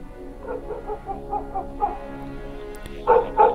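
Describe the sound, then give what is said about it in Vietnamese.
Dogs from a pack bark in a series of short, fairly faint yips and barks, then fall quiet before two louder barks close the passage. “Ấy thế nào, tiếng chó sủa lại vang lên.”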